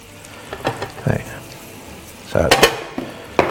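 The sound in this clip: Food frying in a pan as it is stirred: a steady low sizzle broken by a few bursts of scraping and clatter from the utensil against the pan, with no talk.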